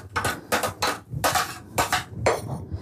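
Kitchen utensils used for grating fennel clatter and clink as they are cleared away, with a series of loud, bright metallic bursts in an uneven rhythm and no talking.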